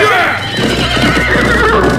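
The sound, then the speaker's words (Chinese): Horses neighing as a group of riders arrives, with a rising whinny and hoofbeats in a loud, dense, continuous mix. A voice is heard through it. “众人离去不久后，朱无界带领手下骑马赶到。”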